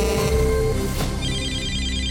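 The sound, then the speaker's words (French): Electronic answering-machine tones on a radio station's phone line: a loud, steady tone gives way to a warbling, ringtone-like trill that repeats rapidly until the end. “Après le bip, c'est à vous.”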